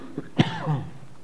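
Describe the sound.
A single sharp cough from a tickle in the throat, with a faint small throat sound just before it and a brief voiced throat sound trailing after; no talking.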